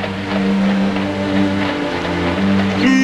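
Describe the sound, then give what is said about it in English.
An automobile driven by an army officer approaches under a stone arch in a town street: a steady, low engine drone with a smooth rumbling hum that holds fairly even and swells slightly toward the end. “To his left, an automobile approaches under a stone arch with an army officer in uniform at the wheel.”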